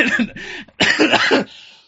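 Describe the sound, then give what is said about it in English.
Coughing from someone getting over a cough: two loud, harsh bursts close together, the second longer and rougher, ending in a short fading rasp. “sorry, I'm coming down off a cough.”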